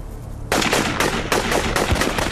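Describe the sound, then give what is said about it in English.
Rifle fire from a sixteen-man firing squad at an execution of prisoners tied to stakes: a sudden loud volley that breaks into many rapid, overlapping cracking shots, rattling on for about two seconds. “A firing squad of 16 men leveled their rifles. The order was given to fire.”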